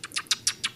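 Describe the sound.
A human voice imitates a blackbird with a rapid series of short, high chirps, evenly spaced and fairly faint, heard alone.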